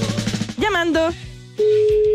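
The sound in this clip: A mobile phone call rings out with a single steady, mid-pitched tone. It comes after a brief voice and a quiet gap, and holds evenly to the end.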